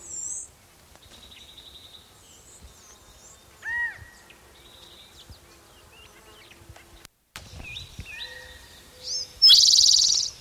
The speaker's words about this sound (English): Maybe the calling bird is the mate.